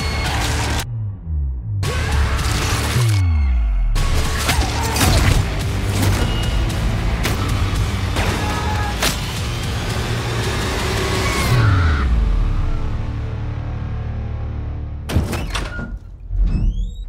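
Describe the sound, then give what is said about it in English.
Horror film trailer audio for Fangoria Presents Puppet Master: The Littlest Reich, full of loud booming thuds and slams with several falling whooshing sweeps over dense, rumbling sound design. A few sharp hits land near the end. “that was the trailer for Fangoria Presents Puppet Master”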